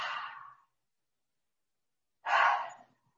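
A deep breath taken with hands resting over the heart at the end of a calming self-massage: two soft, airy rushes of breath separated by a pause, with no talk.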